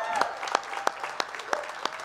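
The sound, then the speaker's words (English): A church audience applauds to welcome online viewers, a steady wash of clapping with sharp individual claps standing out at regular intervals. “Hey, can we make some noise? Can we welcome in our online Vineyard family? Come on, let's hear it for them.”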